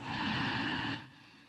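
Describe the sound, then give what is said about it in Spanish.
A long, steady inhaled breath during a guided meditation, a soft airy rush that lasts about a second, then fades to quiet. “Y simplemente vamos a respirar. Inhalamos.”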